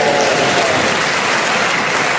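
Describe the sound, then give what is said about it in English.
A few people in the audience of a comedy panel game clap briefly. The clapping is a dense, steady patter, fairly loud and with no voices over it. “And 4 people clapped.”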